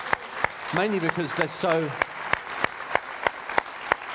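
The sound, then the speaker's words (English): Audience applause at a church gathering, heard as steady, evenly spaced sharp claps running through the whole clip, with a voice calling out over the first half. “I think we should keep applauding all these people,”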